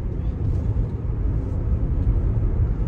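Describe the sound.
Low engine and road rumble from inside a heavy-bodied car as it accelerates, a dense, steady drone that stays fairly even throughout.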